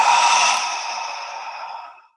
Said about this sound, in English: So take a deep breath in, bend your arms, hold the breath, and